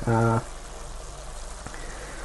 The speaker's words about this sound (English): The good thing about anything that you cook in a pan, of course, is that you can usually hear it. This isn't sizzling particularly loudly because we have got a little bit of liquid